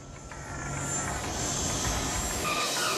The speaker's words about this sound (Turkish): Pekala, iniş takımlarını açıp indirelim.